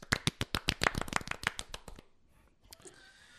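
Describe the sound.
Hand clapping from an audience giving an ovation: about two seconds of crisp, separate claps in a quick, fairly regular rhythm, then a quiet tail with a single faint late clap.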